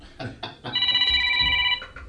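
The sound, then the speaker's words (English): A mobile phone rings with a bright, steady electronic tone lasting about a second. A few short knocks come before it. “No, it's oh, hang on, that's my phone. Yeah. Hang on, sorry, go away. Go away, clear off.”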